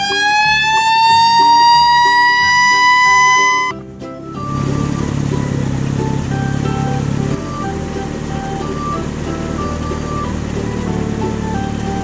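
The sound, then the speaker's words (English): Siren of a red fire truck: a loud, steady harmonic wail that rises slightly for a few seconds, then breaks into dense, rumbling noise with lingering tones. “Red fire truck.”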